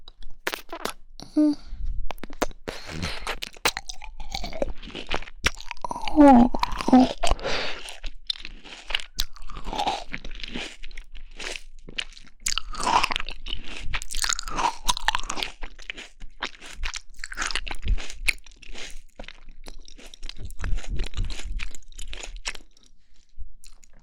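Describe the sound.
Loud crunching and chewing of crunchy fruit, with many wet bites in an irregular rhythm that continue through the whole stretch.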